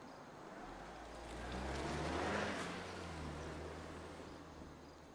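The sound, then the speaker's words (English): A car reverses out of a driveway and drives off, its faint, low engine rumble swelling to a peak and then easing away. “gets in, and prepares to drive off. He looks up briefly, then watches her reverse out of the drive and leave.”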